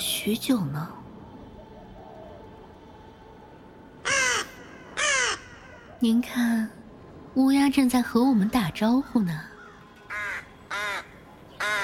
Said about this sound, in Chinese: 您看，乌鸦正在和我们打招呼呢。